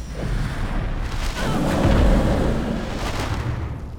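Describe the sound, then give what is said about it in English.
A fire-breath attack in a video game roars as a sustained, broad rushing blast that swells louder through the middle and then eases off, with no talk over it. “let me try blowing fire on that thing.”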